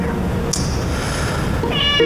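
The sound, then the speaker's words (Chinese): A single short cat meow near the end, rising out of a low, steady background hum. “这谁的猫啊？”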